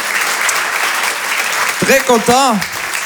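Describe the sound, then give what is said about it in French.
A live audience applauds in a continuous, even wash of clapping, and a voice speaks over it in the last second or so. “Merci, merci, merci, vous êtes très très gentil, beaucoup d'amour à vous, applaudissez-vous, vous êtes magnifique, vraiment, applaudissez-vous”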